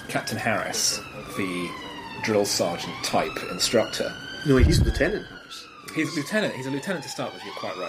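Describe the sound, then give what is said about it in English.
A police car siren wails and warbles steadily beneath men's conversation, continuing under the talk throughout. “That is the sound of the police. Here he comes.”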